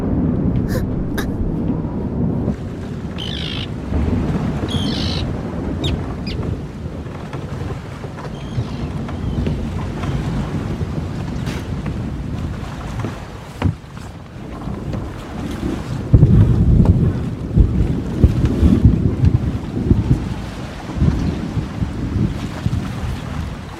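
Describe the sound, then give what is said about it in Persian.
Storm wind roars loud and steady throughout, buffeting the microphone with a broad rushing noise, and gusts swell harder toward the end. “وای نه، طوفان.”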